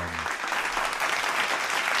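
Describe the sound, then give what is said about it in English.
Steady applause from a group giving a round of applause, a dense, even patter of many clapping hands that holds at the same loud level for the whole stretch without a break. “I'd like you first to give a nice round of applause for yourself”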